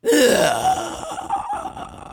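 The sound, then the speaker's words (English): A woman voices a ghostly creature with a loud, rasping inhaled gasp that carries a wavering pitched tone, then tapers into softer airy breaths. The human voice imitates an otherworldly creature's breath. “And that's just kind of a ghostly inhaling kind of sound.”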